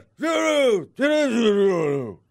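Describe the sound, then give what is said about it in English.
A person lets out two startled groans: a short, voiced one, then a longer drawn-out groan that sinks lower in pitch at its end. “Yeah, this was a surprised and this was a startled groan and then a get away from me kind of groan.”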